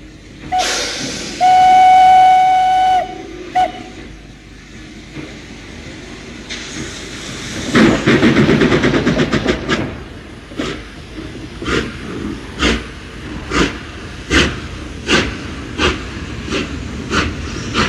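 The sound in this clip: A steam train runs on rails, opening with one bright, sustained whistle over hissing, then a moving rumble and a steady rhythm of many loud clacks of the wheels.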